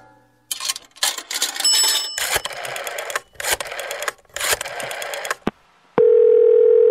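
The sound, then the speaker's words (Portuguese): Steady telephone dial tone as a call is placed, a loud, even hum that fills the final second, after several seconds of choppy, clattering bursts with short gaps between them. “então vamos lá ligar para o Pedro PK, 27 anos, de Recife.”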